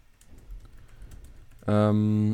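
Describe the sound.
Quiet typing of notes on stats gives faint, scattered key clicks, which give way to a loud, steady tonal hum lasting under a second.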